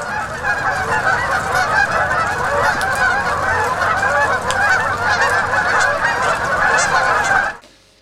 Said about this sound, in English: those were the calls of Canada geese in flight, a common sound and sight